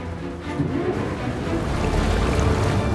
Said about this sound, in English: The boat's moving, oh no.